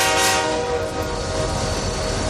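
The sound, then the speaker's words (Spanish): A train at a commuter rail station in Madrid gives a continuous, loud rumbling roar under a sustained, steady horn-like tone that lasts the whole time. “En este caso ocurrió en una estación de tren.”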